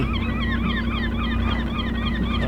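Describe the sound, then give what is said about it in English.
Gulls and double-crested cormorants calling at an island nesting colony, heard while sailing past. Many overlapping honking and squawking calls form a dense, continuous chorus over a steady low drone. “It's a gull and cormorant colony.”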